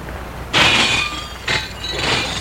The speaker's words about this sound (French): Il brise la vitre.